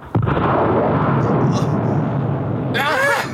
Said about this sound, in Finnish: Rakettimoottori käynnistyi 2 sekuntia myöhässä.